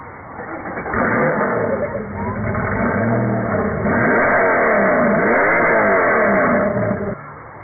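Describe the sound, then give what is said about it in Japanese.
Revving of a Porsche sports car engine: a loud, sustained roar that swells and dips in pitch for several seconds before easing off at the end. “ポルシェか。金ってのはあるところにはあるもんだよな。”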